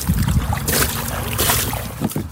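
Water rushes and splashes as an old pet carry case with algae growing on it is washed down. Steady hissing spray swells into a few louder splashy bursts, with no voices.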